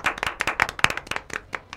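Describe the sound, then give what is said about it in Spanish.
Applause for an actress after a radio theatre performance: quick, sharp hand claps from a few people, irregular and crisp, with no voices over them. “Saludo a la actriz Ángela Ojeda, que participó en este. Un aplauso para ella.”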